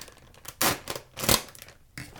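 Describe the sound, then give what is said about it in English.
A knife cutting open a plastic bag of frozen chopped onions, giving a few bursts of crinkling and tearing plastic with brief pauses between them. “Where'd that knife go? Oh, there it is. I'll just cut that open.”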